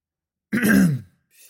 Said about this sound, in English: He cleared his throat and drank more of his tea.